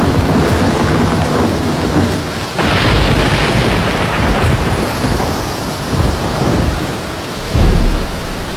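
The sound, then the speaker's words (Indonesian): Thunder rolls through a storm over the Mahakam River, a continuous heavy rumble mixed with rain-like noise that swells sharply a few times. “Petir menggelegar sambung menyambung. Air sungai Mahakam bergejolak.”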